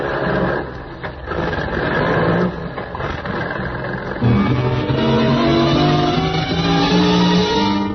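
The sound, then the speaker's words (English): A truck engine drones as the vehicle swings around a loading platform: a loud, steady rumbling hum that shifts partway through into a stronger, more tonal drone. “You swing the truck around the loading platform where you agreed to meet the Baron.”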